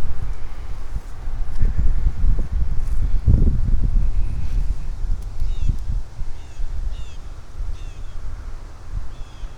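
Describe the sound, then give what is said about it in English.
Gusty wind blows outdoors along a beaver path near a dam, heard as a continuous low rumbling roar with stronger buffeting surges in the first half that ease off toward the end. “I'm walking along a beaver path right now in the wind.”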